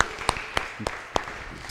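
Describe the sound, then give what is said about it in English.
Sparse hand clapping from a Presbyterian audience, thin and subdued, with several distinct louder claps at a steady beat over a soft patter. “that was a decent Presbyterian clap.”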